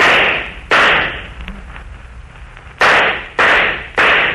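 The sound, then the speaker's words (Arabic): Gunshots fired by guards. Five loud, sharp bangs each decay quickly, with a long gap between the second and third and the last three in quicker succession. “حراس اضربوا فيهم نار، اطلقوا عليهم رصاص.”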